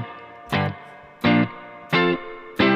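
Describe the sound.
Electric guitar chords played through a Strymon two-in-one delay-and-reverb pedal on its spring setting with the mix turned down. Four bright, distorted chords are struck at an even pace, each ringing briefly and then decaying, with no talk.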